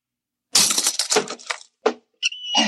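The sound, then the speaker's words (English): A lock is smashed open with hard, brittle crashes and cracks: a dense burst of breaking impacts, then a few separate sharp hits with a glassy, clinking edge, all loud against silence. “I'll have to smash the lock.”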